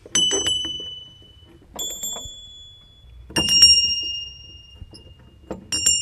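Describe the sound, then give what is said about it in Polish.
Small sleigh bells of various sizes, each with its own tone, ring in about four separate bursts. Each burst gives bright, high metallic tones that ring briefly and then die away, with quiet gaps between. “Także dzwoneczki są różnego rodzaju, wielkości, każdy ma inny dźwięk.”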